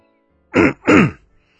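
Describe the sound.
A man clears his throat in two loud, rough bursts with a brief gap between them, then silence.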